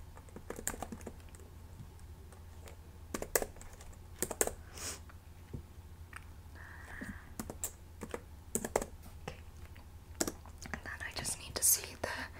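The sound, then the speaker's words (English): Computer keyboard typing as credit card details are entered at a hotel check-in desk: soft, irregular bursts of quick key clicks broken by short pauses, with faint whispering. “So I just need to type in the information.”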